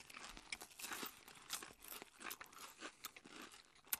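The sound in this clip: Crisp crunching as cheese and onion potato chips are bitten and chewed, with many quiet, irregular crackles packed close together and no talking.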